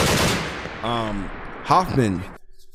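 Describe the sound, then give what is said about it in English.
A machine-gun turret fires suddenly in a Saw film, opening with a dense, rapid rattle of gunfire that quickly gives way to shouting voices. “But a big old gun turret comes out of nowhere and just guns Gibson down.”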